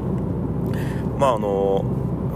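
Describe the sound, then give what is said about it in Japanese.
Steady low road rumble of a car driving toward a home in Fukuoka City, constant and unbroken beneath a voice talking throughout. “福岡市の自宅の方に向かって車を走らせております”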